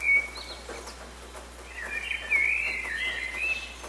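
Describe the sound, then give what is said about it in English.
Birds singing in an early-morning dawn chorus: soft, high whistles and trills, fairly faint, growing a little fuller and busier in the second half, with no voices. “This is the sound of a bird's dawn chorus. Birds sing out like this in the early hours of the morning to let everyone know that they've made it through the night.”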